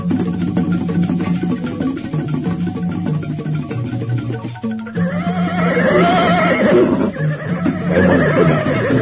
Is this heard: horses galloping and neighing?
yes